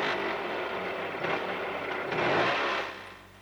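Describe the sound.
An auto rickshaw's engine rumbles steadily as the vehicle comes to a stop. The broad, noisy drone swells briefly near the end, then drops off.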